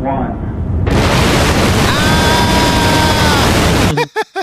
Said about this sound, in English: a whole bunch of rocket engine sounds, which basically just sound like a little pink noise, but are just so massive.